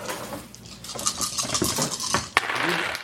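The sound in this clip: Six dice roll and clatter across a table during a tabletop roleplaying game, a busy rattle of many small knocks topped by one sharp click near the end.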